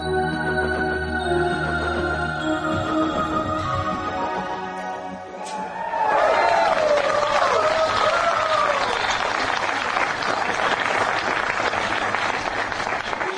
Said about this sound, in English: That was the sound of a bunch of old world Europeans reacting to one of the greatest space exploration successes in history.